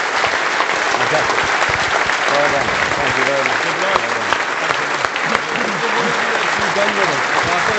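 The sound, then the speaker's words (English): Audience applause for cricketers at a live evening event, a loud, dense and continuous clatter of many hands lasting about eight seconds, with a man speaking over it. “as you applaud all four of them, the master gave us a great night.”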